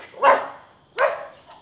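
Two short, sharp barks from a small dog, spaced under a second apart, fairly loud with a faint third yip trailing at the end, no talking.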